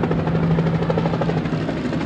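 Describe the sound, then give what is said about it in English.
Helicopters hovering overhead produce a loud, steady rotor drone with a fast pulsing chop and a sustained low hum throughout, without any talk. “While the helicopters hovered overhead almost incessantly”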